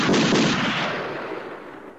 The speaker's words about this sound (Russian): Я стреляю в толпу бунтовщиков.